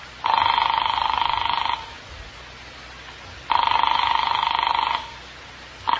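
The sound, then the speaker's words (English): Telephone ringing on the line after a New York number is dialed: two long buzzing rings about one and a half seconds each, separated by a pause, with a third ring just beginning at the end. “Back in the Randolph house, I found a telephone with no one around. I dialed Cal Hendricks' number in New York.”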